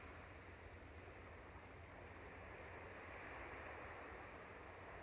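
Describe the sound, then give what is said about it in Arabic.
Ocean waves wash onto a beach of fine white sand in a steady, unbroken roar that swells slightly toward the end, with no voices. “عم نسمع صوت الموج خلينا نقعد على هيدا الشط”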